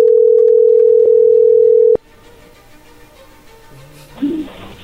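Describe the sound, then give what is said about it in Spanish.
A loud, steady telephone dial tone plays as a call is placed, holds for about two seconds, then cuts off sharply, leaving quiet line noise and a brief louder burst near the end. “Bueno, a ver, ahí se está marcando.”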